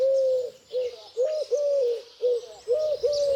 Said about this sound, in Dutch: In onze cursus Vogelzang zijn we aangekomen bij de Turkse tortel.